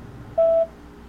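A single touch-tone keypad beep as a telephone number is dialed: one steady, mid-pitched tone lasting about a quarter second, standing out clearly over a faint background hum.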